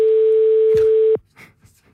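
A telephone busy tone on a call to a landline: one steady, fairly loud tone holds for about a second, then cuts off abruptly, leaving faint scattered sounds.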